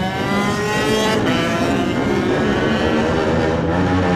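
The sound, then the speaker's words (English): A Honda 250 lightweight racing motorcycle engine roars loudly and continuously at an arena event. Its buzzing, harmonic-rich note holds steady throughout with no voices. “Let's have a listen to the Padgett Smolenko 250 Honda.”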